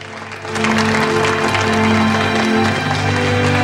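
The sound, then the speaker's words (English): Applause honoring Eddington and Einstein swells in after about half a second and then holds steady, with a sustained low musical tone underneath. “Dyson leads the applause for the two men, who can only smile at each other.”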